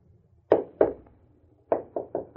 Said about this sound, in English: She used a cane to help her walk from room to room. And one afternoon, she rapped on the floor and called me to her side.